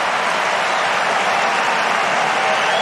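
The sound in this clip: Loud, steady applause and cheering from a home tennis crowd after Sinner wins a point with a crosscourt drop shot. The noise is dense and continuous throughout.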